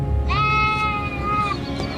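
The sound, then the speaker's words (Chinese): A sheep bleats on a farm whose flock lives in woodland and grazes in the open fields of Chongming Island, Shanghai. One long, wavering, tonal cry rises over a steady low rumble, with no talk. “平时这个羊就是生活在这里，晚上就生活在林地里面。白天天气好的时候呢，我们就把这个羊啊全部弄到这大田里面去吃草。”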